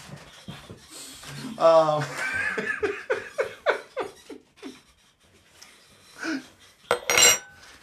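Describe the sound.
Dishes and cutlery clink in a home kitchen as people get ready to eat a pasta dinner. Sharp clinks come through, mostly under lively talk and laughter, with a brighter clatter near the end.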